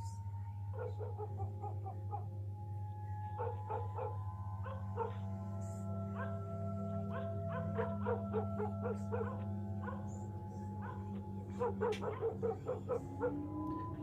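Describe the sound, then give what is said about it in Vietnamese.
Village dogs barking on a deserted village road. Short yips and barks come in scattered bursts, fairly faint, over a steady low hum, with a quicker cluster of barks near the end. “Đâu đó chỉ vọng lại tiếng chó làng cắn ma nhấm nha nhấm nhặng.”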